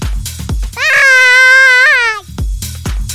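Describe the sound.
A baby wailing: one loud, sustained, high-pitched cry held for over a second, with shorter noisy bursts before and after it.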